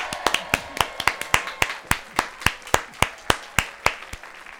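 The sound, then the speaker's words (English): Studio audience clapping in a steady, rhythmic beat, sharp hand claps repeating at an even, quick pace for several seconds. “Oh, that's our studio audience. Yeah. They'll calm down in a minute.”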